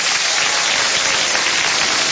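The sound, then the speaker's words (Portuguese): Applause for birthday celebrants: dense, even clapping that holds a steady, fairly loud level from start to finish. “Vamos aplaudir com alegria os aniversariantes.”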